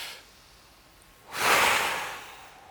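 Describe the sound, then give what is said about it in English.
A deep breath in and out: a single long, airy rush of breath swells, then slowly fades. It stands alone with no talk. “So take a deep breath with me, all right? Now let it out as deeply.”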